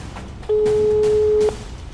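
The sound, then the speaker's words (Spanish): Ringback tone on a phone call that goes unanswered: a single steady, clear mid-pitched tone lasting about a second, alone over faint background noise. “No nos contestó la llamada. Vamos a marcarle otra vez”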